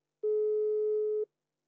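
A single ringback tone sounds on an outgoing phone call that goes unanswered: one pure, steady beep of about one second, then silence.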